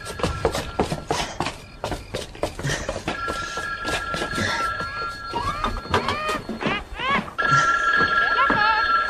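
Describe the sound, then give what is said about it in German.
A telephone rings in an audio drama: two stretches of bright, steady ringing amid busy clattering and knocking sounds. “Das Telefon.”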